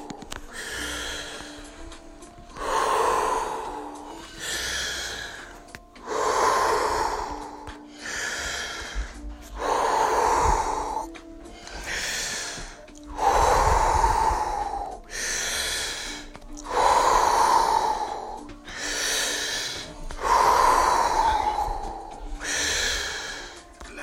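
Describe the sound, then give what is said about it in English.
Continuous breathing as a breathing exercise, with inhales and exhales following each other without pause in a steady, even rhythm of many loud, breathy cycles and no talk. “Pull in and letting go. Just keep on going. No pause between inhalation and exhalation.”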